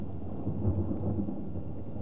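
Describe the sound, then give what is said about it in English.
A hungry stomach rumbling in a low, murky, continuous growl that resembles thunder, fairly faint and steady for about two seconds. “It's not a thunderstorm. It's my stomach rumbling.”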